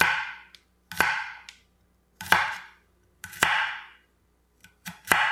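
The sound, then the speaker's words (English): Knife chopping vegetables on a cutting board: several crisp, sharp strikes in loose pairs, each leaving a short bright ringing tail, heard alone without voices. “Can you name that sound? Is it like cutting something on a cutting board? That is exactly what it is.”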